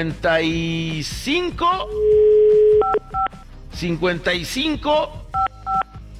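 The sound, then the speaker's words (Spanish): Telephone keypad tones as a number is dialed: a steady held tone, then two quick clusters of short dual-pitch beeps, with a voice talking loudly before, between and after them. “Vamos a marcar al”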